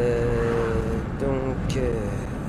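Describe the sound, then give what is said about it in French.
A car overtakes a large truck on the Route Nationale 7 toward Valence. A steady road roar and engine hum run throughout, with a faint tonal whine and talking over the top. “sur la route vers Valence, National 7, il y a un gros camion devant moi que je vais doubler”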